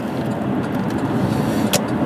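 Steady road noise from a car driving in traffic: a dense, even rumble and hiss that holds at one level throughout, with no speech.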